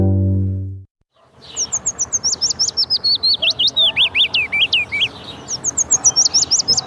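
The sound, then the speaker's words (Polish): Willow warbler song: soft, melodious phrases of many quick, whistled notes gradually descending in pitch, one long phrase followed by the start of another, heard alone. “Piecuszek. Jego śpiew składa się z charakterystycznej, stopniowo opadającej sekwencji dźwięków. Jest miły dla ucha, melodyjny, miękki i nieco melancholijny.”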